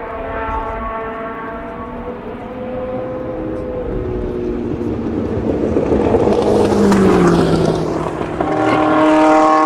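Engine revving up against a faulty rev limiter, a loud harmonic drone that holds steady, then swells and climbs in pitch through the second half before settling onto a high, sustained tone.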